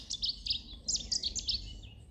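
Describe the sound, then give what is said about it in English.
Birdsong of rapid, high, bright chirps in two short quick phrases, the second slightly longer. A faint low rumble runs underneath. “The air around you filled with birdsong, fresh and invigorating.”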